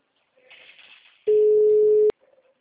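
An outgoing call's ringing tone: one loud, steady, single-pitched tone lasting under a second. Faint line noise comes before it, and a brief low murmur follows.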